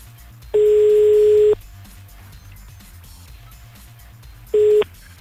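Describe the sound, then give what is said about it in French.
Ringback tone of a French radio show's call to a listener in Courcelles: a steady tone of about a second, a long pause, then a second tone that cuts off short, over a faint low rhythmic hum. “Maintenant, on va appeler à Courcelles.”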